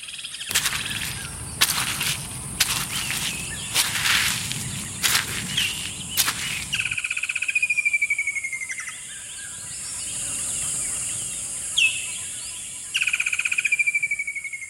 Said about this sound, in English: Nature Valley invites you to take a minute to re-energize with the sounds of nature, starting with this walk through the forest.